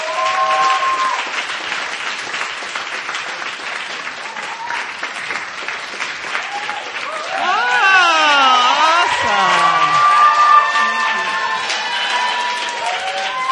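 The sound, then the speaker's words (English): An audience claps steadily to welcome a guest speaker. The dense, sustained applause swells partway through with cheers and shouting voices. “So let's put our hands together. Let's welcome up Vicki Porterfield.”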